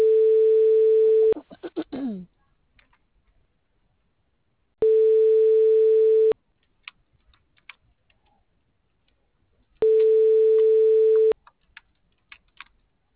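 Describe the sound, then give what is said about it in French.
Telephone line tone during a call transfer: three steady mid-pitched tone bursts, each about a second and a half long, separated by long near-silent gaps with scattered faint clicks. “Je transfère votre appel.”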